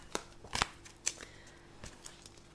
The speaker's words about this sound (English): on that note, I'm going to pull a card for us